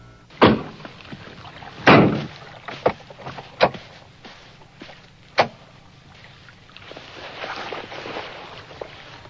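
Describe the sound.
People getting into a car after docking a boat, with a few sharp, solid thumps of car doors closing at uneven intervals, followed by soft rustling and handling noises.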